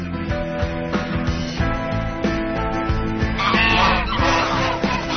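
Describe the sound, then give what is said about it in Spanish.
Geese honking repeatedly in a constant chorus of many overlapping nasal honks, loud and steady throughout, with no talking. “¿Qué les pasa a esos patos? Querían atacarme. Eso no son patos, son ocas.”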